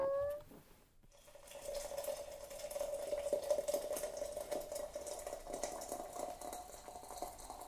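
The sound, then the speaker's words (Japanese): Freshly boiled water pours into a warmed teapot holding tea leaves. A faint, steady splashing stream with a thin ringing tone runs on for several seconds after a brief click and pause. “一緒に温めたポットに茶葉を入れて、沸かしたお湯を注ぐと、”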